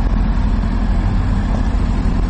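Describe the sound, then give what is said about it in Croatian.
Heavy engine rumble from excavators and trucks at roadworks in Sarajevo's Grbavica and Kovačići neighbourhoods, where workers are relocating pipes; a loud, steady, low drone runs continuously with no breaks. “Zvuk bagera i kamiona, nekoliko radnika u narandžastim prslucima koji izmještaju cijevi, slika su koja se danas mogla vidjeti u sarajevskim naseljima Grbavica i Kovačići.”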